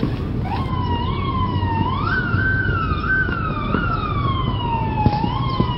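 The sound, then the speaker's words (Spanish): A police siren wails as it arrives at a house, its pitch sweeping up and down in slow, repeated cycles, loud and steady over a low traffic rumble. “al escuchar las sirenas de la policía llegando al lugar sabía que así había sido.”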